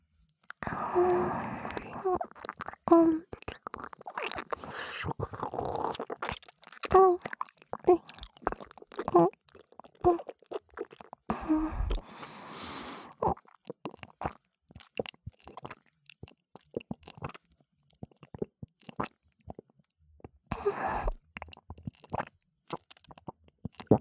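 Food is bitten and chewed with many crisp, close crunches in uneven bursts, separated by quieter pauses and soft mouth sounds.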